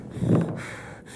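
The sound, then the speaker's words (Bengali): A woman's heavy panting after running, as she sits on a chair catching her breath: a loud, breathy gasp swells early on, then fades into quieter, steady breathing. “একটা চেয়ারে বসে বড় বড় নিঃশ্বাস ফেলছিলেন তিনি”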